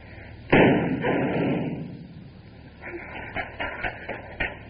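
A single sharp gunshot bursts out during a crime-drama holdup with a car motor left running. The blast decays over about two seconds and is followed by a few softer knocks and thumps.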